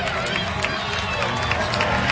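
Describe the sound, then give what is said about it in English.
A baseball crowd of more than 6,200 roars after a game-tying home run into the bullpen levels the score at 5. The cheering is steady and dense, and a commentator talks over it. “Crowd of 6,200-plus going bananas as Amaya has just tied the game at 5.”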